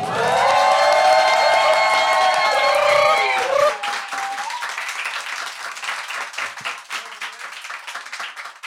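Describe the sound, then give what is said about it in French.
Live audience at a French comedy show cheering with sustained, whooping voices, then breaking into loud, dense applause that carries on steadily to the end. “Quand je dis en live, vous applaudissez, vous faites un truc de fou.”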